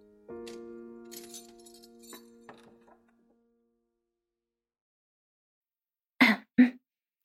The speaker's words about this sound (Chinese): 锁也打开了